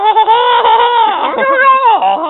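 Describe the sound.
A human voice imitating a rooster crowing: one long, loud, strained cry with wavering pitch and a brief dip midway, heard alone.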